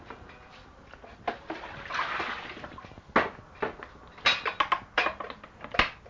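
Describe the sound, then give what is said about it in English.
Clattering of a lid being closed over hot food, a series of sharp metallic clanks and knocks, several clustered toward the end, over a quiet background. “I closed the lid to keep them hot.”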